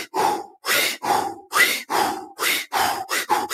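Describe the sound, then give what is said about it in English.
A voice imitating rapid breath-of-fire pranayama breathing: a quick, evenly paced series of about nine forceful, breathy bursts, each short and loud, with brief gaps between them and no words. “Many of them have kind of like a pranayama breath of fire type of feel to them. A lot of times the demos will be like,”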